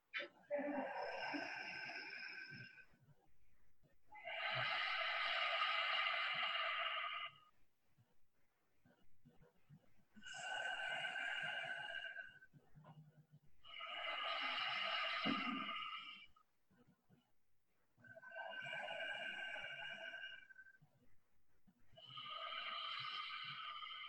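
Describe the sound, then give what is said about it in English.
Slow, deep breaths during a guided breathing exercise, each breath about six seconds long. Loud, airy rushes come in pairs of inhale and exhale, separated by short pauses, with no talking. “So since that's a 6-second breath, we're going to do it 10 times, and that'll be 1 minute.”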